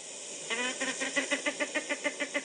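Rhythmic calls of a female bird herding her chicks, from a sound library recording: a brief, longer opening call, then a steady run of many short, soft, harmonic pulsing notes at an even pace.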